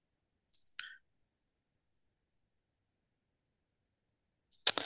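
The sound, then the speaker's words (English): A few faint, sparse taps of someone typing on a device with one finger, spaced apart and followed by long silence, then a single louder burst right at the end. “Give me a sec. I can only type so quick with one finger.”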